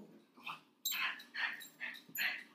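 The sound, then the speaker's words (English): A pet dog barks several times in a quick run. The barks are sharp and fairly faint, with brief pauses between them, and no voices are heard. “Oh, that's just my dog. He barks at ghosts. He sees ghosts and then he barks at them, so we'll have to ignore him.”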